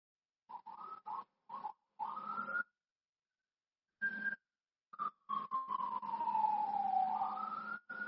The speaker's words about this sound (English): I can hear some police sirens.